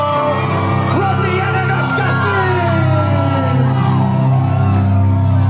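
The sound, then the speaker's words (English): Loud, continuous cheering and whooping from a church youth audience celebrating their youth pastors, with sustained instrumental tones running underneath throughout. “Give them a massive Burn Youth round of applause for”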